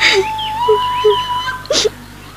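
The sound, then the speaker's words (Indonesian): A woman crying in a dramatized scene after her father's anger, with wavering high whimpers and a sharp sob or sniff near the end. “kenapa kau menangis? Kenapa? Ayahmu marah kepadamu.”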